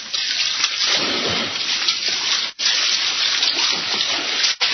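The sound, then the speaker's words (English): Water churns as a swimmer in a mask strokes along the surface of a lagoon toward its center: a loud, continuous wash of splashing and rushing water, broken by two brief gaps. “Put on my mask. If you will swim to the center on the surface, we will give you the exact location.”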